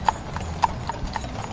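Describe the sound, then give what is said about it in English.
Horse hooves clip-clop as a horse-drawn chuck wagon rides through the city streets of Calgary during the Stampede. The strikes are light and steady, with a faint rumble of the wagon underneath. “The sound you hear is what it's like to ride a chuck wagon through the streets of Calgary.”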